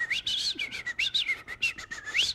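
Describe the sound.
A person whistles an imitation of a varied, complex birdsong: a rapid run of many high whistled notes that sweep up and down in changing phrases, heard alone.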